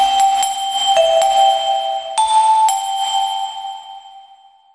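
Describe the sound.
Short chime jingle of several bright, bell-like struck notes, each ringing on and overlapping the next, the tones holding steadily before fading away at the end.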